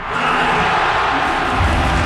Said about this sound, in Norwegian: rundt 35 000 supportere på Ullevål stadion eksploderte i jubel da sluttsignalet gikk